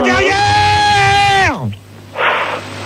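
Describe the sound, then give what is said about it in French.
A man yells loudly in one long, strained, sustained cry for about a second and a half. The pitch drops sharply at the end, and a short breathy noise follows. “je te remercie de gueuler dans mes oreilles”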